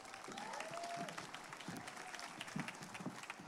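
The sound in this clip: A church audience on Mother's Day applauds to welcome a speaker. The clapping is soft and faint, a steady patter with some louder individual claps scattered through it.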